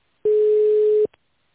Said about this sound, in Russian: Ваш звонок переводится на менеджера.